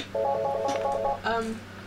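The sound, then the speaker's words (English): An incoming phone call rings as a rapid, pulsing electronic tone that holds for about a second, then breaks off before a second, briefer ring tone. “And we're receiving a call at this time.”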